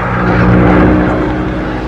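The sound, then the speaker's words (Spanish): Steady droning engine hum inside a military aircraft in flight, a continuous low rumble with layered humming tones that holds level throughout, with no voices. “A bordo del avión militar, el piloto transmitía sus impresiones.”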